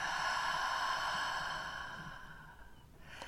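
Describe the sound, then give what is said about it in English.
A slow, gentle breath, done as a calm breathing exercise: a soft, airy rush that stays even for a while and then fades away near the end. “So gently inhalation together, exhalation.”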